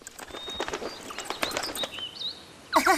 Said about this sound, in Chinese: 原来是八哥的声音啊。